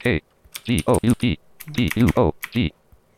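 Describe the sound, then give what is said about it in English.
Typing on a computer keyboard, a rapid series of keystrokes interleaved with short voiced bursts, in two quick runs separated by a brief pause. “looking for the name field, and I'm just going to type in talk groups.”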